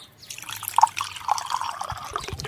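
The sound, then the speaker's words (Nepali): Water is poured, making short irregular gurgles and splashes of moderate loudness with no one speaking. “ए, पानी हाल त।”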